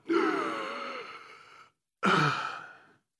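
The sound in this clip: A person imitates the strained, gasping breath of someone hanging on a cross. The first long, rasping breath fades out, and after a short silence a second, shorter gasping breath follows.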